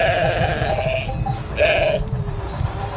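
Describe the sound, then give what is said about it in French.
A ewe with her first newborn lamb bleats, one long wavering bleat followed after a pause by a shorter one, loud over a low background rumble. “Là, c'est son premier agneau, en fait.”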